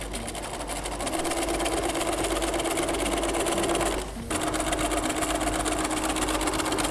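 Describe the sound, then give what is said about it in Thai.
A sewing machine stitching folded fabric that was pressed flat beforehand: a loud, steady, rapid mechanical whir runs continuously, stops briefly about four seconds in, then starts again. “อันนี้คือคุณครูรีดไว้เสร็จละนะคะซึ่งขนาดเท่ากันนะพอพับแล้วก็จะเป็นแบบนี้เราจะได้เย็บง่ายขึ้นเราก็เริ่มเย็บนะคะ”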